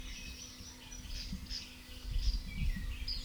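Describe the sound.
A Western Flycatcher gives a few faint, thin high chirps in a field recording from 1967, spaced irregularly over a low steady hum.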